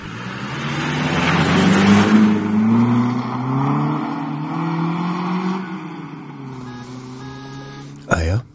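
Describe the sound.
A mail carrier's vehicle driving off: a loud engine drone rises, holds, then eases and fades as people talk over it, and a short sharp sound comes near the end.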